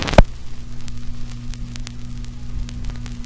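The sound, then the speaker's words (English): A record player needle set onto a turning vinyl record: a single sharp click or thump at the start, then a steady low mains hum with faint scattered crackles and surface noise. “So I'll just put that on here and play it. The button. I love the sound of the record turning.”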